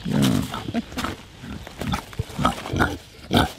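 A kunekune pig grunts at a gate in a run of loud, low, rough grunts and snorts. They come in irregular bursts with short gaps between them.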